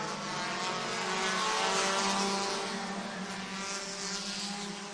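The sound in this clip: Race cars run side by side, door to door, on a track: a loud, steady engine roar with sustained droning tones that holds for the full five seconds and barely changes in level.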